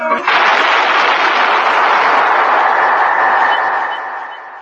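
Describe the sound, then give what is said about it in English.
A gunshot fired in a sewer beneath Vienna breaks in abruptly, followed by a harsh, sustained rushing roar that holds for about four seconds before tapering off. “That was the shot that killed Harry Lime.”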